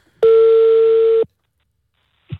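A steady ringback tone sounds on an outgoing phone call. It is a single loud, even hum lasting about a second, then silence, with a brief faint noise at the very end.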